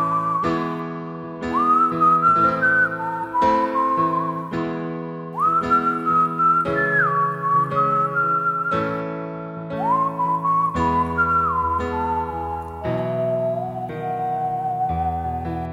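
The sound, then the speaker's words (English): Whistled melody carried over simple sustained chords, the clear high line gliding and stepping between held notes while the harmony below changes every few seconds, with no voices. “I'm going to play much simpler chords underneath it. I'll just whistle the melody.”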